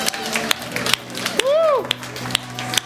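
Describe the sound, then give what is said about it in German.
Rhythmic clapping at a church worship service, sharp claps landing on a steady beat roughly twice a second, while a voice is heard between them. “Komm, gib mir ihm nochmal einen kräftigen Applaus.”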